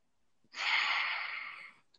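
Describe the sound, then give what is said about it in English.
Breathing through one nostril during a guided full-moon breathwork circle: a single long, airy nasal breath that begins abruptly, holds steadily for over a second and then tapers off, heard alone in near silence. “you could just go like this from one nostril, hold it, and then release. And then breathe up from that nostril, hold it.”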